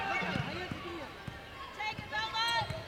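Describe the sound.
Basketball dribbling on the court during an MTSU vs. Belmont women's college game: several sharp, evenly spaced bounces thud beneath steady play-by-play commentary.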